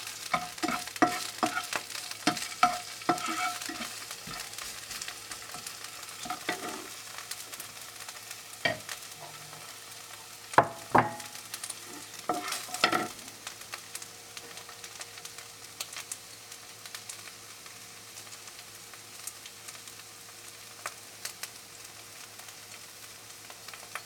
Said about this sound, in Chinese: 因为那个是葱最有味道的一个部分，我们就要丢下去让它爆香。丢下去，稍微炒一下。